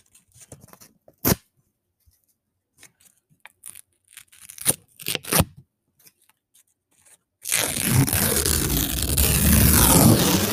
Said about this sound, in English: Here we go. Faster ripping this time.